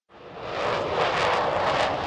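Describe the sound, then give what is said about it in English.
Fighter planes taking off at Joint Base Elmendorf-Richardson, their jet engines making a loud, dense roar that swells in quickly and holds steady. “Watching from a roof at Joint Base Elmendorf-Richardson, fighter planes take off one after another, arcing widely before disappearing in the distance. It's too loud to hear much”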